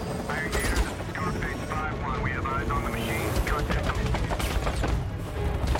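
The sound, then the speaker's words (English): A machine gun mounted on a helicopter fires in rapid bursts of shots with a mechanical clatter. A voice speaks over the gunfire. “Connor is in a helicopter sitting behind a mounted machine gun.”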